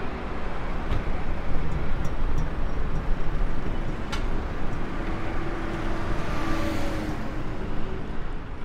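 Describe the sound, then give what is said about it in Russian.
A car, apparently a convertible, drives along a road under a blazing sun, giving a steady, even rumble of engine and tyre noise that holds at a constant level throughout, with no talk. “Автомобиль едет по дороге под палящим солнцем.”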